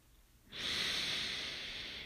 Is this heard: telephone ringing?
no

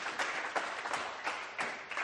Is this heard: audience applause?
yes

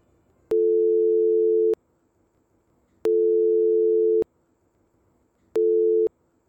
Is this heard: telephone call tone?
yes

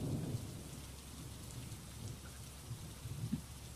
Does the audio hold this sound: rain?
yes

